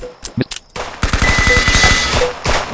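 Machine pistol fire in a video game: a rapid burst of about ten quick, evenly spaced shots follows a few short, scattered sounds.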